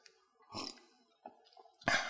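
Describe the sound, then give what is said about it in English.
A speaker sips a drink: a few soft, brief slurping and swallowing noises separated by near silence, quiet and isolated. “So let me take a sip.”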